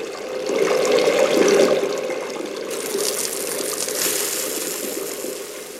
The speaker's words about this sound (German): Bitte sofort die Hände waschen.